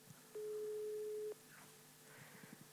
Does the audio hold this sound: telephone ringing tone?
yes